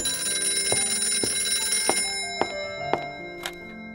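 A phone rings during a birthday gathering just before a cake is cut, giving a bright electronic ringtone of sustained melodic notes that step between pitches, punctuated by a few short clicking accents, loud and with no talk over it.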